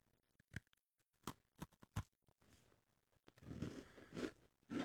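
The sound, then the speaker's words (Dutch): A faint, crisp bite into a crunchy homemade chocolate cookie packed with chocolate: several sharp cracks, then steady, softer chewing. “Ik ga voor het zelfgebakken koekje van Robbe. Spannend. Eigenlijk moet ik niet proeven, want ik heb al heel de ochtend koekjes gegeten, maar ik zal het toch even proeven voor jullie thuis.”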